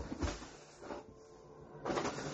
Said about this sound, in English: sure it's not in any of the other drawers?